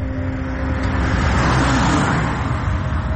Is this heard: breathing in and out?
no